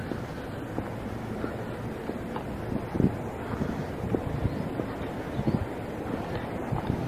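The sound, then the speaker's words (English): Breezy outdoor wind on a sunny day, a steady gusty rumble buffeting the microphone with a few soft thumps scattered through, no voices. “Sounds like a beautiful day, even on this machine. It's breezy, it's sunny.”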